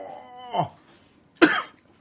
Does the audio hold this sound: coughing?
yes